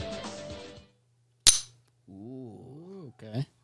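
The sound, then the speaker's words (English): An empty pistol has its slide released with a single sharp metallic snap, a brief bright click that stands out between stretches of talking. “Now that I've verified that the chamber's empty and the clip is empty and in my hand, I'm gonna go ahead and release the slide.”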